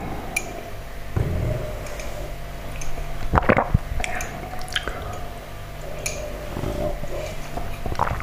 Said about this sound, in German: Einfach lecker, noch so ein Karamell.